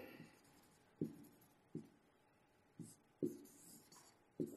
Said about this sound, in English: Now, where'd that pen go? Fantastic. All right, so let's begin with this. I'm going to draw.